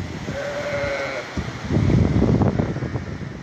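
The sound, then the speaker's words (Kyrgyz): Sheep bleat in a yard as a rain-fed mudflow sweeps through a village in Bazar-Korgon district, Jalal-Abad region, in 2020; one drawn-out bleat comes early, then loud rushing water and wind noise dominate. “Койлор короодо калды, короону аралап кетип атат сел мына.”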